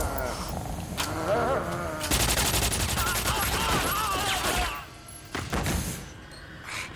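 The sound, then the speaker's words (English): Gunfire in a film scene where a criminal shoots his accomplice in the back. A few sharp, loud bangs cut through a dense, busy soundtrack of action noise. “The lead criminal calmly walks towards his accomplice and shoots him in the back.”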